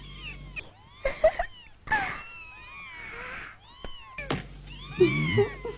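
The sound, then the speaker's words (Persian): A kitten meows over and over, a run of many short, high-pitched cries that bend up and down in pitch and vary in loudness, with brief gaps between them. “وای، آروم باش گربه کوچولو.”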